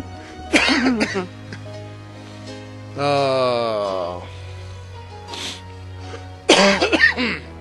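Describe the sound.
Phlegmy throat clearing and coughing: a rough burst, then a drawn-out voiced rasp, then another sharp burst, all loud over a low steady hum.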